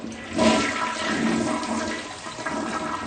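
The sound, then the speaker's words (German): A toilet flushes with a steady, loud rush of gurgling water that swells early on and then keeps flowing evenly to the end, with no voices. “Dieses Geräusch einer Toilettenspülung ist in Doras Haus nicht mehr zu hören.”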